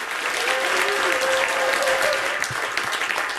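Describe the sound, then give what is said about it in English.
Audience applause as two guests, a United Nations ocean advisor and a UCL environment professor, are welcomed onto a panel stage: dense, steady clapping that fills the whole moment. “Please welcome them to the stage.”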